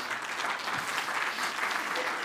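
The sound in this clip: A church audience applauds a guest speaker at a morning service, with steady, dense clapping from many hands, sustained evenly and fairly loud from start to finish.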